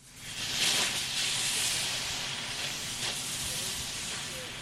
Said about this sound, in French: Ce que vous êtes en train d'entendre, c'est le bruit d'un chalumeau professionnel utilisé hier pour faire fondre de l'acier et pour découper en plusieurs morceaux la cheminée de l'ancienne chaufferie